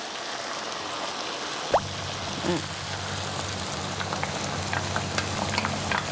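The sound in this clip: Tomatoes sizzle in a pan just after a splash of fish sauce: a soft, steady crackling hiss throughout, with a sharp knock and a brief clatter near the start.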